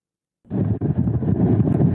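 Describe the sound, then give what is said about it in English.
Strong wind buffets a microphone on a beach during a hurricane storm, a sudden loud, low rumbling roar that starts abruptly and then blasts on steadily, with no voice heard. “The wind is whipping stronger than it has in the last 24 hours. It is unbelievable.”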